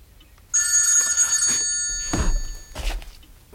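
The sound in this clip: A telephone rings with a long, bright electronic trill that holds steady for a couple of seconds and then fades, followed by a couple of dull thumps in an otherwise quiet room.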